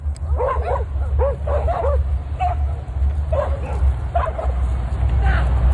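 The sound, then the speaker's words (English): Several dogs bark, yip and whine excitedly as they chase a man after their walkers let go of the leads. Many sharp barks and yelps come in irregular bursts over a steady low outdoor rumble. “He wasn't betting on these amazing dogs who were, I guess, the dog walkers or the two women let the leads go,”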